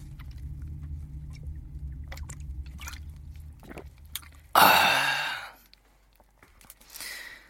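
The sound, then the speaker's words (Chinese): A sip of water is taken, with faint mouth and swallowing clicks over a low hum, then a loud breathy exhale and a softer breath near the end. “嗓子有点累。喝一口水啊！”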